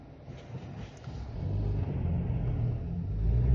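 Car driving through a city intersection, a low, steady engine and road rumble that grows slightly louder as it moves on, with no talk.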